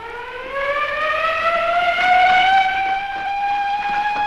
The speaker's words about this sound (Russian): По сигналу сирены цех заполнили рабочие с винтовками в руках.